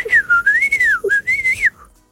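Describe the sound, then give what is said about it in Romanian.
A person whistles a smooth, melodic tune. The pitch wanders up and down in connected phrases with one short break midway, then fades out near the end. “și ce se întâmplă când tu fluieri, mai fluieri așa frumos ca înainte?”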